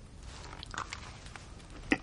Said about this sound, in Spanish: Se sienta entre los dos con un recipiente lleno de pastelillos. Se los acerca a Harry. ¿Quieres? No, para mí no. Ginny y Harry están serios. Ron come un pastelillo.